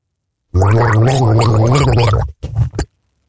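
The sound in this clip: Someone gargles a tune: a long, steady, bubbling gargle with a wavering pitch, followed by two short gargled bursts after a brief break, with no talk over it.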